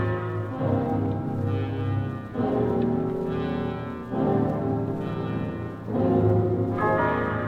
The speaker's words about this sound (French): Merci, bonne cloche